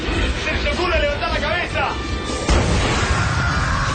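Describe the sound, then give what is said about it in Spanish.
A radio drama sound effect of an alien invader's ray weapon firing a deadly burst at a street: a dense, noisy roar that swells abruptly partway through, with agitated voices over it. “un nuevo rayo invasor aparece desde la calle 13 y dispara su ráfaga mortal.”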